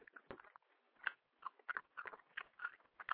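Someone chews Airheads taffy candy with faint, sticky, smacking mouth sounds. Many soft bites and squelches come in an irregular rhythm, with no talking.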